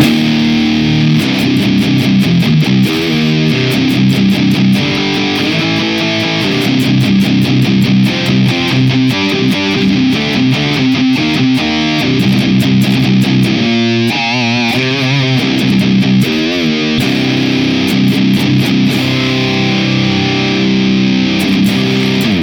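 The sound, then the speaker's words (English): Heavily distorted electric guitar played through a Neural DSP Archetype amp plugin with a Super Bad Kraken 2 cabinet impulse response, in stereo: loud, saturated chugging riffs and sustained chords run continuously with dense, gritty treble. “And our Neural DSP Archetype Bossy in stereo, using the Super Bad Kraken 2 impulse response, sounds like this.”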